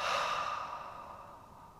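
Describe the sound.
A long breathy exhalation during a tense-and-hold breathing exercise, a single continuous airy rush that starts strong and slowly fades, with no talking.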